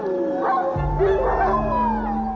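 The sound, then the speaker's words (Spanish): Recorded wolf howl played back to keep wolves away from livestock: a long, wavering, tonal howl that climbs and dips in pitch, over a steady low hum. “usar aullidos grabados para evitar que los lobos ataquen al ganado”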